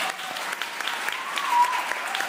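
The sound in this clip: Thunderous applause after a public performance, a dense, continuous roar of many hands clapping that holds at an even, full level throughout the short stretch.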